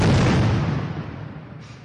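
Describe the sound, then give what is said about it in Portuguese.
A cardboard box suspected of holding explosives, found to contain coconut, is detonated by a tactical police team. A single loud, deep blast rolls out and decays steadily over about two seconds. “Os profissionais se aproximaram de uma caixa de papelão onde estaria o material explosivo. Quando a caixa foi detonada, a surpresa.”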